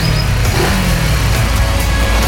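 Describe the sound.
A car engine revving and accelerating, a loud, rough, throaty roar that holds steady for about two seconds.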